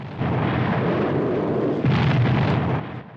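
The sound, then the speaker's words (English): Heavy artillery from a gun emplacement fires at battleships in deep, roaring blasts that merge into a continuous rumble, growing heavier partway through before tailing off near the end. “The gun emplacement fires heavy artillery at the battleships.”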